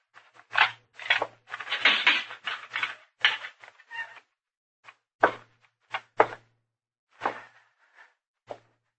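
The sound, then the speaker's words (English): Jail cell door being unlocked and opened, heard as many short metallic clanks, thuds and rattles in uneven bursts over a low steady hum, loud at first and then more spaced out. “Unlock his cell, will you, Chester?”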